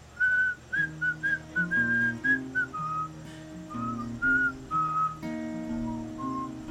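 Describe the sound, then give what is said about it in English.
A person whistles a lively tune in many short, clear high notes, phrased in bursts with brief pauses, over a steady backing of sustained instrumental chords. “And this is where you get to whistle, and this is how this part goes.”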